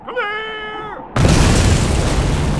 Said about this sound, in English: After watching as they reduced a solid rock face into tons of rubble in an ear-splitting instant